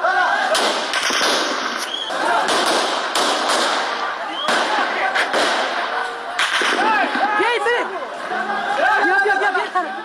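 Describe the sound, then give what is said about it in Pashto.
Gunshots fired into the air by the Taliban at a street protest in Kabul: several sharp, loud cracks cut through continuous crowd chatter and shouting, spread irregularly across the scene. “دوی اعتراض په فیسبوک باندې ژوندۍ خپراو چیرې چې د ډز غوګون هم اوریدل کیږي.”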